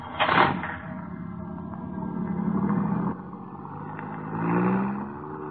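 A car drives off, its engine surging at the start, then settling into a steady running hum with a second swell near the end; no voices are heard.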